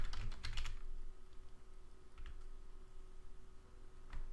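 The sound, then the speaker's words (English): Typing on a computer keyboard: a quick burst of clicking keystrokes at the start, then sparser, irregular key taps and clicks, fairly soft and without voices. “I'm going to go ahead and type them in. My script name is going to be all queue statistics.”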